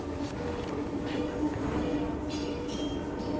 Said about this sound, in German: Ich fuhr mit der U-Bahn nach Hause